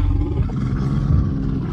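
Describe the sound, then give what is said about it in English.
An angry bear's roar, a sound effect from the film Cocaine Bear, rumbles loud and continuous for the whole stretch, a deep, rough, growling bellow with no talk over it. “this is the sound of a bear that's pissed off because he's eating lunch in a closet somewhere.”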